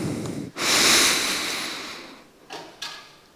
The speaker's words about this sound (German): So, ich mache jetzt eine Übung mit euch. Einmal tief einatmen, bitte.